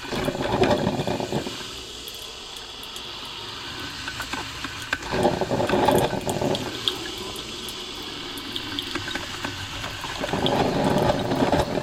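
Coffee is being made: water rushes and hisses steadily, with louder surges near the start, middle and end. There are no voices.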